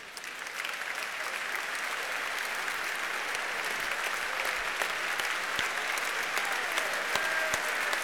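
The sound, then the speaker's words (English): An audience applauds and cheers to welcome a celebrated actress onto the stage. The clapping is thick and steady, and it holds at an even, fairly loud level for the whole eight seconds without easing. “So many endless cheers.”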